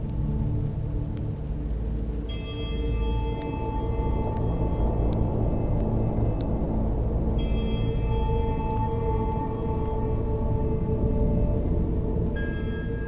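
Heavy pouring rain falls as a dense, steady hiss and rumble throughout. Sustained eerie high tones come and go over it, and no one speaks.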